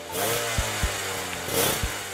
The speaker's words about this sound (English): let me just rev this motorcycle real quick and then hop off and show Jack Ma how it's done.